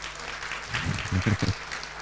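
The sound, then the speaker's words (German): Applause from the audience at a church service, welcoming a visiting family: a brief, fairly faint burst of clapping lasting about a second, between quieter stretches. “Heute ist die ganze Familie, die ganze Reihe hinten angekommen und wir geben ihnen einen Applaus.”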